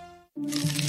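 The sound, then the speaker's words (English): Corn pests destroying crops are rendered as a dense, gritty crunching burst. It begins abruptly after a moment of silence that follows fading tonal music. “This is the sound of corn pests wreaking havoc on your crops.”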